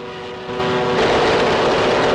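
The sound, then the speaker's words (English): A fighter plane engine drones during an aerial dogfight against a Japanese fighter. The steady harmonic hum grows louder in two distinct steps and then holds at a strong level. “Jim sees that he's in trouble and quickly steers his plane towards him, aiming his guns at the Japanese fighter.”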